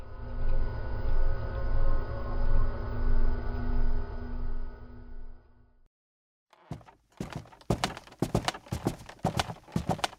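Footsteps climbing the stairs up to a safe house office. A steady low droning hum fades into a brief silence, and then a quick run of many heavy, knocking footfalls follows.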